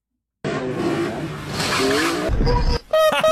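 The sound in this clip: Car engine roar and skidding tire squeal as a car set up for ramp drifting launches off a ramp, a loud continuous rush that starts abruptly, drops out briefly near the end, then resumes.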